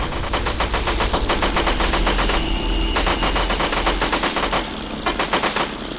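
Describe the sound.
Machine gun fire rattles during a fighter plane attack run, a rapid unbroken stream of sharp shots over a low, steady rumble, loud throughout with no voices.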